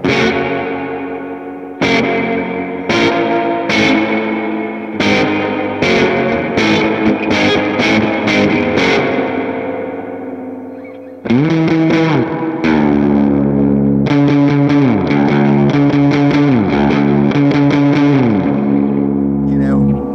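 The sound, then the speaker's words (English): An electric guitar runs through a Ghost Echo reverb pedal for a washy tone. A series of picked notes rings out and decays, then after a short gap come thick, sustained distorted chords with sliding bends and a smeared wash. “the Ghost Echo is, okay, so I use this to drive, you can see, drive kind of a washy sound in”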